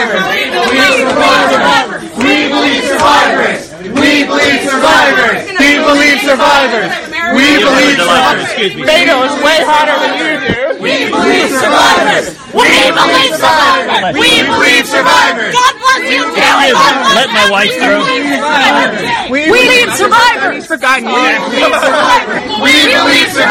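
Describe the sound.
Protesters chant at Senator Ted Cruz over the Kavanaugh confirmation hearings. A loud crowd shouts rhythmic slogans in unison, with phrases repeating and short pauses between them across the whole stretch.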